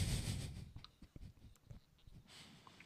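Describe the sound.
Coloured pencils scratching softly on paper while colouring in with green and yellow: faint, irregular strokes and rubs at low volume.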